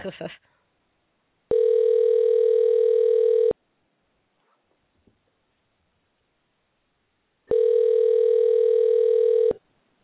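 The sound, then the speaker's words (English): Telephone call ringing out unanswered: two long, steady ringback tones, each about two seconds, separated by a longer silence, with a short click at the start. “Well, it dropped me. It said that the call failed or was not answered.”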